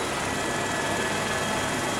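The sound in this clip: Helicopter rotor and engine roar as the machine flies with its blades feet from the ice on a mountainside, a dense, steady, unbroken noise with no voices.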